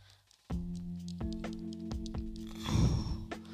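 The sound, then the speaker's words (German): Video game cooking effect as five ingredients go into the pot at once: bright tonal, chime-like notes with a series of rhythmic onsets, then a fizzing, bubbling swell near the end, with no voices. “Wir kochen fünf Sportlinge.”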